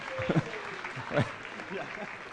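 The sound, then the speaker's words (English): Audience applause for a jelly mold making act, a soft, steady patter of clapping underneath a voice speaking over it. “Last but not least, give these guys a clap for their jelly mold making.”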